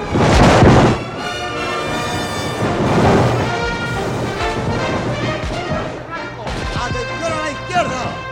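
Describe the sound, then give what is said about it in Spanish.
Artillery fire as a radio drama sound effect in a Napoleonic-era battle scene: a heavy booming blast at the start, then continuous rumbling bombardment with voices over it. “¡Atención nuestra artillería! ¡En orden de combate! ¡En posición! ¡Fuego!”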